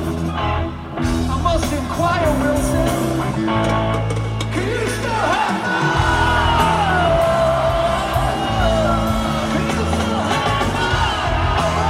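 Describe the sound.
A live rock concert audience loudly shouts a lyric line together with the band, many voices yelling and whooping over sustained, full-volume music for about twelve seconds, with a brief dip near the start.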